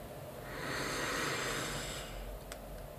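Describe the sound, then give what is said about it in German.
A group breathes out together during a yoga session: one long, soft, airy exhale swells up and then fades over about two seconds, faint and hushed, with no talking. “Wir atmen gemeinsam aus, um unseren Atem zu synchronisieren.”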